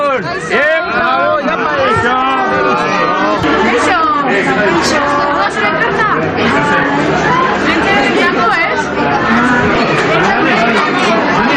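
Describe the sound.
A dense crowd of voices, children among them, chatter and call out greetings at a Christmas letter-giving event, a continuous bright babble that fills the whole stretch.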